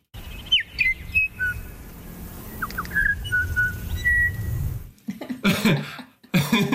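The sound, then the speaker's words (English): Female bellbird song on Burgess Island: many clear, piping, musical whistled notes, some sliding in pitch, over a low rumble, followed by a few loud coughs. “So this, just some examples of how musical bellbird song can be. This is on Burgess Island, where the females all sing something that's vaguely related to happy birthday kind of sound.”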